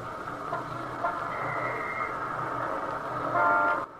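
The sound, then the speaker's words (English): Street-corner traffic in New York City, a steady engine rumble and road noise with a brighter horn toot near the end, just before the sound cuts off abruptly. “imaginary street corner in the heart of New York City”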